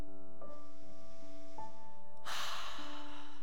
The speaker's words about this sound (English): Close your eyes and breathe. Big deep breath in.